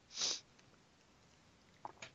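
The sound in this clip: A single sharp sneeze bursts out loudly at the start, followed by quiet and then two faint, quick sniffs near the end.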